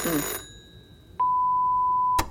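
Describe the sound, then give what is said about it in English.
A telephone ring cuts off, then after a short gap a single long, steady electronic beep sounds for about a second. “Let's let it go to answer phone.”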